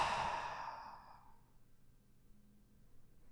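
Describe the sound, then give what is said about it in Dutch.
A long, breathy exhale through the mouth during a guided relaxation breathing exercise, fading out over about a second before near silence. “Laatste keer adem in via je neus. Houd je adem even vast. En adem uit via je mond.”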